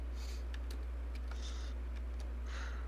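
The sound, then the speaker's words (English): Many dice roll in a few quick clattering bursts of light, dry clicks, faint over a steady low hum. “Boy, that's a lot of dice.”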